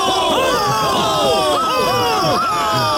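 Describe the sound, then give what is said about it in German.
Crowd cheering at a fools' procession led by Quasimodo, many overlapping voices whooping and shouting in bright rising and falling calls, loud and continuous throughout. “Ah, der Narrenzug! Angeführt von Quasimodo, unserem Narrenpapst! Der Bucklige von Notre Dame! Hochlebe Quasimodo der Erste!”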